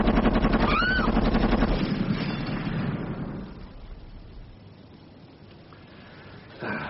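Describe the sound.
Gunfire erupts in a dramatic shootout near a hotel window: a loud, rapid burst of shots that fades into a long, decaying rumble, followed by a brief thump at the end.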